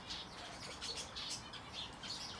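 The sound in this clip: Birds chirping in an aviary at a botanical garden, with many faint, high, quick tweets scattered over a steady hiss, no voices present.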